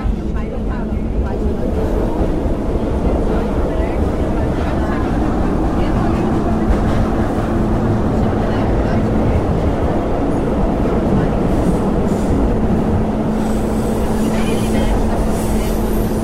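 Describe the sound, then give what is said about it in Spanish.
Metro train pulling into a station, a continuous low rumbling roar with faint rattles for the whole stretch, while a recorded announcement voice speaks in Portuguese over it. “Próxima estação, C. Acesso à linha 3 vermelha. Desembarque pelo lado esquerdo do trem.”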